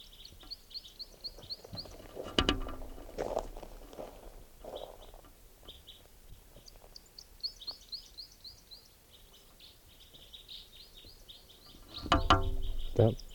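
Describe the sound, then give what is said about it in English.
Bird song with many short, high chirps in repeated runs, interrupted by a few louder knocks and thumps of handling noise. “Here's that bird.”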